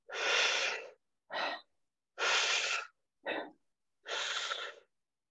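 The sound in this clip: A voice imitates drawing in breath with five breathy, hissing bursts alone. Longer and shorter bursts alternate: long, short, long, short, long, with clear pauses between them.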